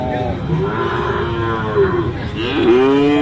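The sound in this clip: Cattle mooing at a cattle market where sacrificial cows are sold: long, low, droning moos over a busy, noisy background, with a fresh, louder moo rising near the end.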